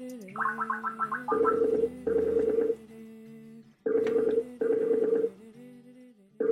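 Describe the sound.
A Skype call rings out while waiting for the other person to answer. A warbling trill opens, then two pairs of loud, steady electronic ring bursts follow with a quieter gap between the pairs.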